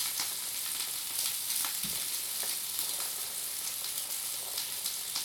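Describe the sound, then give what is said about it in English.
Sausages sizzle and crackle as they fry in a pan. The spitting hiss stays steady and continuous from start to finish, with no voices. “Yeah, now the sausages are ready. Almost everything is ready, almost.”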